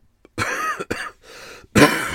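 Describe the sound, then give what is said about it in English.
A few harsh, noisy coughs in quick succession, loud and with short pauses between them, with no talk. “Amazing I made it through that record without coughing. There was some coughing and some burping as well because I'm on Diet Coke.”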